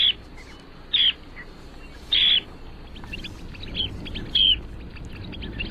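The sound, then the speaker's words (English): Calls of a medium-sized, stocky sandpiper with a slightly drooping bill, reddish-brown upperparts and a black belly patch in breeding plumage: a handful of short, high, thin notes at uneven intervals over a faint steady hiss. “Our mystery bird is a medium-sized sandpiper, about 8.5 inches long, kind of stocky with a slightly drooping bill.”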